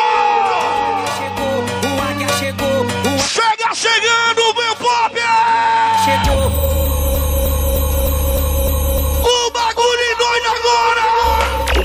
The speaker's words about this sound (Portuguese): Quem é do Clube do Remo, dá um grito!